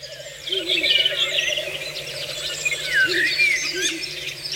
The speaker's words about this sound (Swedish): Där var det en slagugla som ropade.